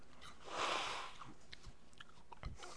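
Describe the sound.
A faint crisp crunch of teeth biting into an apple, followed by soft, irregular chewing and a few small crunches as the bite is worked, heard alone at low level.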